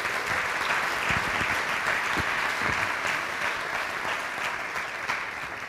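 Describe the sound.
Warm applause from a church audience in Tempe welcoming a guest preacher, dense, loud clapping sustained evenly throughout with no voices over it.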